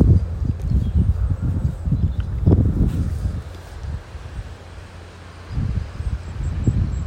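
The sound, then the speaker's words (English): Gusty wind blows through a tall, striking fir tree, heard as a low rumbling rush that surges and eases in uneven waves, dipping briefly before building again. “All that wind you can hear, hopefully you can hear it nicely and not just as a racket on the mic, is blowing through a really, really sort of quite architectural and sort of striking fir”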